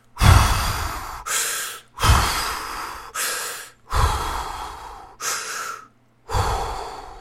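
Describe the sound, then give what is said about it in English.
Deep breaths taken slowly in a series, each inhale and exhale a loud, airy rush of breath separated by short pauses, with no talking. “Deep breaths.”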